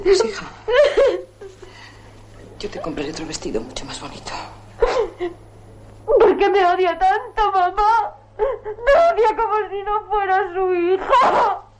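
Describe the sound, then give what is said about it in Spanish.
A woman crying inconsolably on her bed, loud wavering sobs and wails in long bursts separated by short pauses, with a faint low hum underneath. “En el interior, Monsieur llora desconsolada sobre su cama.”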